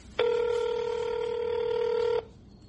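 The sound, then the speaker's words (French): Telephone ringing tone as a call is placed, a single steady buzzing tone with a bright, layered timbre that sounds for about two seconds and then stops, leaving faint background noise. “Allez, on appelle tout de suite Sabine Soumaré.”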